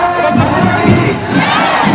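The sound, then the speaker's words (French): A jubilant crowd cheering at a Republic Day national parade in New Delhi, a loud, dense wall of shouts and cheers that stays constant throughout the two seconds. “Une foule en liesse acclame sa nation.”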